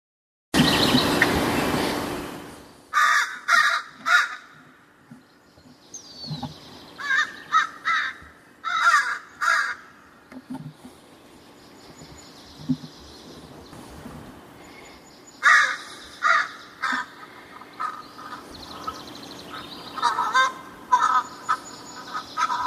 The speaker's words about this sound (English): American crow.